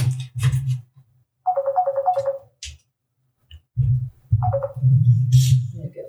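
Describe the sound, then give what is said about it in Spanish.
A phone ringtone for an incoming call plays a short repeating phrase of bright melodic beeps, falls silent, then starts again briefly, with voices and other noises around it. “hay una llamada.”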